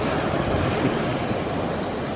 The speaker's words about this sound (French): C'est du gaz qui brûle.